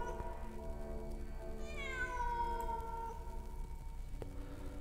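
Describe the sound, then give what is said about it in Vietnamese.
A black cat wails on a rooftop at night, letting out one long, drawn-out, mournful cry that glides downward in pitch. The cry is faint and rises over a low, steady background hum. “Hàng đêm nó đi đi lại lại, lâu lâu lại kêu những tiếng ngân dài đến ai oán.”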